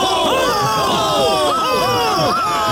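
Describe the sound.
Crowd cheering and shouting at a Feast of Fools procession hailing its pope of fools, many overlapping voices forming a loud, continuous roar of whoops and calls.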